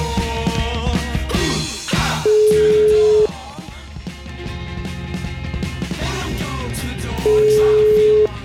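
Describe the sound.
An outgoing telephone call's ringing tone sounds as two steady, even beeps, each lasting about a second and separated by a long pause, heard over a loud, busy background.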